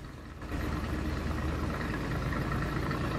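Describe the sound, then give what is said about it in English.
A car engine drones steadily as the car trundles up a hill between fields and trees. The low, continuous rumble swells at the start and then stays even throughout. “The car trundles up a hill, flanked by fields and trees.”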